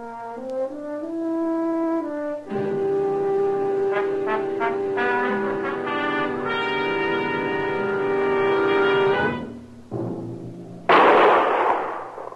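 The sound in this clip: A single loud, sharp gunshot at a raccoon on the prairie bursts out near the end, after a long held musical chord fades.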